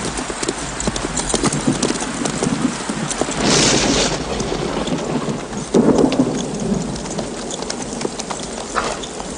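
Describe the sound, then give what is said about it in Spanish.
Horse hooves clip-clop in a steady walking rhythm during a rainstorm, under continuous rain and low rumbles of thunder. “Eres un caballo inútil. No sirves para nada. Oh, lo siento, caballo.”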